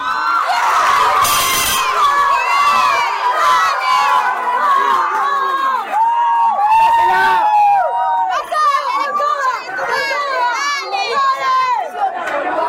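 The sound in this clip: Football crowd cheering a goalkeeper's diving two-handed save at a match involving Mexico, a loud, sustained roar of shouting and whooping voices that rises and falls in waves without a break.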